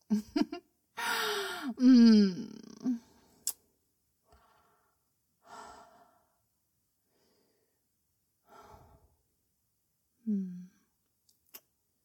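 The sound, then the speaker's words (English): A person catches their breath with heavy, voiced gasping. A loud, drawn-out breath comes early, then several fainter, spaced breaths and a sharp intake follow between stretches of silence. “But before I ask, I need to get my breath back.”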